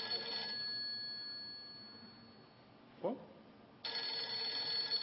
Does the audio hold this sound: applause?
no